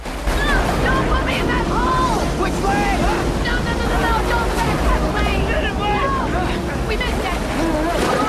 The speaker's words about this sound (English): The boat approaches a series of falls. They plunge towards a swirling eddy of water.